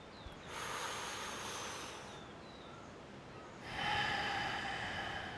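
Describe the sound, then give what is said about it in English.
During a breathing exercise, a long, soft inhale through the mouth is followed by a slightly louder, drawn-out exhale through the nose, both airy and hissing, with no voices. “This is cosmic breath two now, so the inhales through the mouth. The exhales through the nose. No pause between the breath.”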